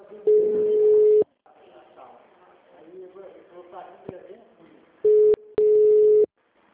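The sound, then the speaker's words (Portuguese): Unanswered call tones on a telephone line to an HR office in Colina: a long steady tone, a voice talking, then two more loud tone bursts close together at the end. “Tentando ligar lá no RH de Colina. Mas não atende. Não atende.”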